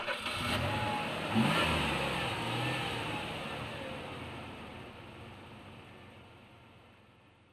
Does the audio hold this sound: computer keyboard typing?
no